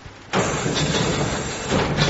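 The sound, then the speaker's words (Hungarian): A lecture-hall blackboard slid upward on its frame makes a loud, sustained grinding rumble that starts abruptly and continues steadily to the end. “följebb húzom egy kicsit a táblát”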